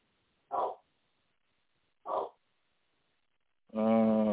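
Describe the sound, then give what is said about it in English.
A dog barks, fairly faint and alone: two short, separate barks a second and a half apart, then a longer, more tonal bark or yelp at the end. “now I thought the dog would stop barking, but he's barking”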